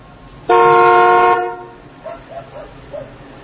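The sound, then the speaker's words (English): A car horn gives one loud, sustained, steady honk lasting about a second, then falls silent while a few faint, short sounds follow. “To the man on the phone, don't honk.”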